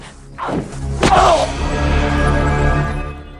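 A sword is driven through a man's stomach: a quick swish gives way to a heavy thudding impact, then a low rumbling tail.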